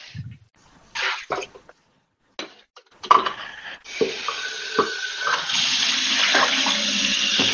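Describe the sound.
Water runs from a tap to fill a vessel for heating tea water. A few scattered clinks and handling knocks come first, then a steady, rushing stream of running water continues at moderate loudness until the end.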